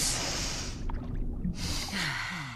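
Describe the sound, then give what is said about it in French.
A person takes a deep breath: two long, breathy rushes of air with a short pause between them, fairly loud and with no talk. “Détends-toi Respire à fond”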